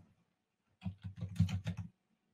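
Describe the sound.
A quick run of several keystrokes on a computer keyboard while entering a search in Azure Data Studio. The crisp, clicky taps last about a second, with quiet before and after.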